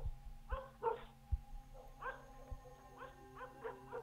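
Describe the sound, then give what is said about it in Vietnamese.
Dogs barking at night, a series of short, yappy barks in irregular bursts with pauses between them, fairly faint over a low steady hum. “Đầu đó có tiếng chó cắn ma nhấm nha nhấm nhặng vang lên”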